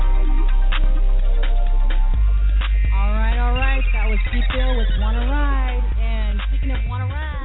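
A telephone ringtone announces a special caller phoning in. It is a loud, melodic electronic tone with gliding, warbling notes that sound thin and band-limited, over a steady low hum.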